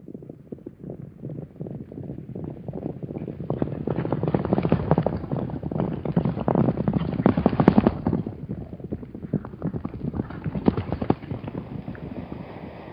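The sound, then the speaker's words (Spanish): Horses gallop in a rapid, unbroken patter of hoofbeats that swells louder midway and then carries on at a steady driving pace without voices. “Llevamos 3 días galopando.”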